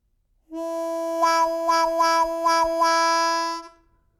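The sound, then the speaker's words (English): A harmonica holds a steady chord while the player's cupped right hand opens and closes, shaping five rhythmic wah-wah swells before the note fades out. “Now, keeping the heels of our hands together and opening the cup with our right hand, we can get wah-wahs.”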